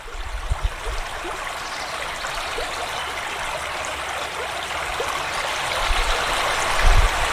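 A river flows past a beaver dam in a steady, rushing stream of water, with a few low bumps near the start and end as the flow swells slightly louder toward the close.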